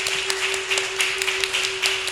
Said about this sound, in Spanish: Muchas gracias, un aplauso por favor.